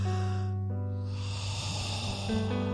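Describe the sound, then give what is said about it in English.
A church audience draws a deep breath together, a broad rushing inhale swelling in the middle over a steady sustained tone. “Everyone take a deep breath right now.”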